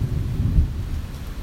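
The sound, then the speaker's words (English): Thunder rolls through a rainstorm as a low, steady rumble with rain hiss, short and without any sharp crack. “as we allow the rain and the thunder to roar”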